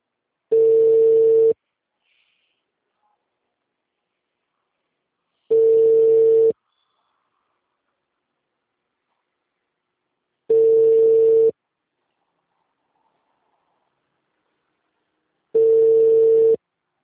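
Ringback tone while placing a telephone call: four steady, mid-pitched tones, each lasting about a second, repeating at even intervals of about five seconds with silence in between.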